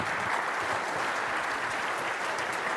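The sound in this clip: Church audience applause at Kirby Church welcoming a guest preacher to the pulpit, a thick, steady patter of many hands clapping throughout.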